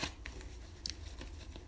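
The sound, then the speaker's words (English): Soft tapping and light papery shuffles come from someone straightening a stack of playing cards. A few brief, faint clicks and rustles are scattered across a quiet background. “I'm trying to straighten up my cards.”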